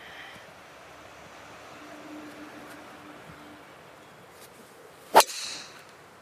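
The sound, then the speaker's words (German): A golf club strikes the ball on a small fade shot with one sharp, crisp crack near the end, followed by a brief fading swish. Before it there is only faint, steady outdoor ambience. “Ich probiere jetzt einen kleinen Fade ziemlich genau auf die Baumkante im Hintergrund zu schlagen.”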